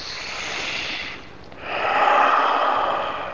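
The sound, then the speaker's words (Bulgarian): A deep, forceful breath during a breathing exercise: a loud, airy rush of breath in two swells, the second longer and stronger, separated by a short quiet gap. No talking is heard. “Просто мощно и дълбоко поемане на дъх, вдишване.”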